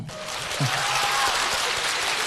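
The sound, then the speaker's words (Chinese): An audience applauds with continuous, even clapping that holds at a moderate level from start to finish. “不用鼓掌，不用你们的虚情假意。”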